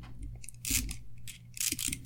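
Faint clicking and ratcheting from a zip tie tensioning tool pulling a zip tie tight and cutting it flush in a car, with two brighter bursts of crisp clicks among softer ticks.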